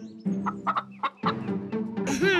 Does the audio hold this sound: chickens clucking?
yes